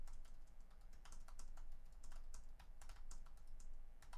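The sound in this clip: Soft, steady typing on a computer keyboard as notes are written down, a continuous patter of many quick keystrokes.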